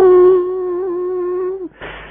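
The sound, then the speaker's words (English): A voice imitates the blast of a conch shell being blown: one long, steady, buzzing hum held for about a second and a half, sagging in pitch at the end, then cut off by a short breathy rush. “Krishna took his panchajanya conchal and went,”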